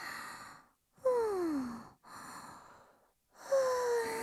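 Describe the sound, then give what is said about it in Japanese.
Someone drawing in and blowing out cigarette smoke in four airy breaths separated by brief silences. Two of the breaths carry a soft, voiced, falling sigh. “てか、タバコ吸っていい？最近吸ってないとイライラすんだよね。”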